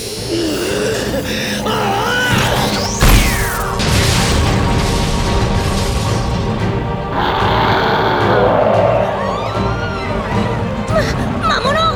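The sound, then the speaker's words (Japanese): A magical cage that held a captive monster breaks apart in a sudden loud burst around three seconds in, with sweeping tones and a dense, roaring wash of effects and low grunting noises continuing throughout. “今ので魔物を閉じ込めていたシルドブラシアが壊れたんだ。”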